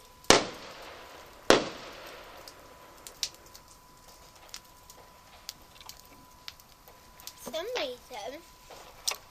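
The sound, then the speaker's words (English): Fireworks exploding at a pub: two sharp, loud bangs about a second apart, then a quieter stretch of low background noise. “They must be having some fireworks at the pub.”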